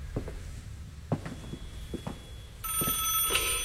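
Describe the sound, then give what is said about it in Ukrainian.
A telephone rings with a long-distance call: a few soft thumps and knocks, then a bright, continuous bell ring bursts in and keeps ringing loudly to the end. “Краще, може, хай собі й далі дзвеньке. Я б узяла. Мало хто це може бути. Ну, це або помилилися номером, або набирають навмання з похмілля. Добре, відповім.”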